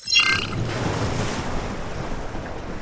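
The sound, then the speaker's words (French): Seaside ambience at Boca Chica in southern Texas, with steady surf washing and wind rushing, a constant broad hiss that holds at an even level throughout. “Allez eh bien Bruno, on va à Boca Chica, tout au sud du Texas.”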